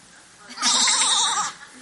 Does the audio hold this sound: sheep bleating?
yes